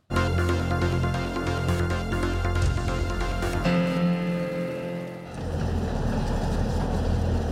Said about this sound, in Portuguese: O Jornal da Record acompanhou com exclusividade o trabalho de fuzileiros navais para mapear áreas de difícil acesso do estado. Foi preciso o uso de um veículo anfíbio especial.